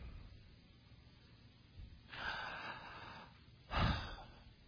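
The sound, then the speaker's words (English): A person breathing in, two quiet airy intakes heard alone: a longer, drawn-out breath followed after a pause by a shorter, sharper and slightly louder one. “I just breathed air. Do I believe that I breathed air?”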